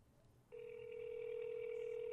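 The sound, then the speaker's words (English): Steady electronic telephone tone on an outgoing call waiting to be answered. It starts abruptly after a half-second of low hiss, then holds as a single continuous mid-pitched tone with fainter overtones until the end. “See if he answers. Come on, pick up, Al.”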